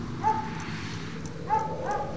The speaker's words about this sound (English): That dog out back continues to bark.